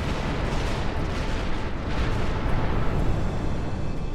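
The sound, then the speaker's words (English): Deep, roaring blast of an exploding star: a dense, rumbling wall of noise with heavy low end that stays loud and steady for the whole clip, with no separate bangs standing out. “to the apocalyptic blast of an exploding star”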